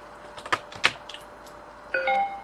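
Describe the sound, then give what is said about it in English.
An SD card is plugged into a USB card reader on a Windows computer, giving a few light plastic clicks and ticks, then a short electronic chime tone as the device is recognized. “I'm going to plug my SD card into the reader.”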